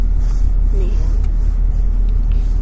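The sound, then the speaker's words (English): Motorbike engine from a motocross video game, a steady low droning rumble that holds through the whole stretch, with voices talking over it. “This is the motocross.”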